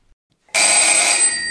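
An electric doorbell rings as guests arrive: after a brief silence, a single loud, bright, buzzing ring starts abruptly and holds steadily to the end.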